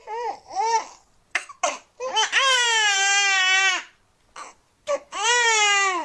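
A newborn baby girl cries just after birth in a series of high, wavering wails. Short sobs alternate with two long, sustained cries, separated by brief silent gaps.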